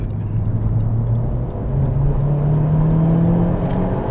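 A track car accelerating, its loud, continuous engine drone climbing steadily in pitch with no voices present.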